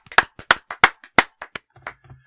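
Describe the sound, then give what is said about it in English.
Scattered hand claps from a few people in a studio: many sharp, uneven slaps in quick succession that thin out toward the end, with no voices. “So let's give him a round of applause.”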